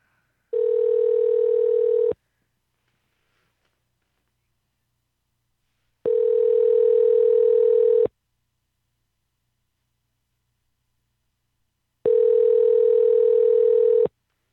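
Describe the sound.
Telephone tones play while a call is placed back to someone: three long, steady tones of about two seconds each, separated by silent gaps of roughly four seconds, with no voices.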